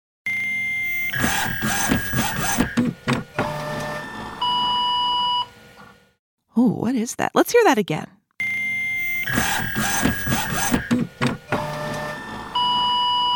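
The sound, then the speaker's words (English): Fax machine tones play twice, steady electronic beeps and warbling handshake tones broken by crackly bursts, with a short pause between the two plays where a person speaks. “So, what's that sound? A fax machine. A fax machine.”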